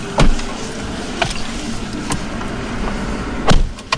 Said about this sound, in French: Au départ de Kitwe, nous sommes quatre dans un véhicule.